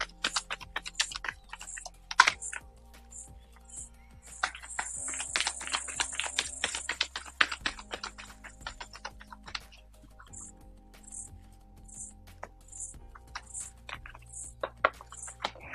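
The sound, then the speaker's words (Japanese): Oracle cards being shuffled and drawn, a run of many quick, light papery clicks and riffles in an uneven rhythm, soft and on their own with no talking. “それでは今日のね、オラクルカードをちょっと引いていきましょう。”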